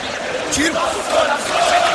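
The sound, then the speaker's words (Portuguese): Corinthians football players and fans sing the club anthem together at a small arena. The raised massed voices are ragged and shout-like, swelling slightly over the two seconds. “Olha aí, pessoal, jogadores e a torcida cantando o hino do Corinthians.”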